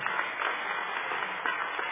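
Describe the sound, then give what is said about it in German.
Audience applause at a band concert as the musicians, including tenor horn and baritone players, are introduced; a steady patter of many hands with a few sharper claps standing out. “Euer Applaus.”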